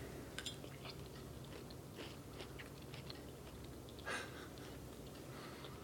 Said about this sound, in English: I want to taste the meat that went in here.